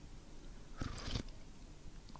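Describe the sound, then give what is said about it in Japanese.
Brief eating sounds as someone tastes clam soup spaghetti with butter and parsley, a couple of short, faint slurps or bites close together around the middle, then quiet. “アサリのスープスパゲティの完成です。では試食してみます。いただきます。”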